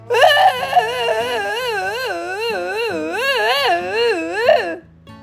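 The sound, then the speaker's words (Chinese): A voice performs a little black bear cub crying loudly in a children's story, a long warbling wail with wavering pitch over soft background music. “大爸觉得又生气又委屈，因为从来没有人对他这么做，便放声大哭了起来。”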